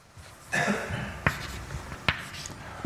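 Writing on a board during a mathematics lecture: a few scratchy marker or chalk strokes, each ending in a sharp tap, over a quiet, hushed room.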